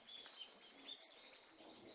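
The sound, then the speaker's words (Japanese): Birds calling in a jungle: faint, high chirps and tweets scattered over a soft, steady hiss of ambience, with no talking. “なんでね鳥の声聞こえるの？ なんか空やから。でジャングルや。”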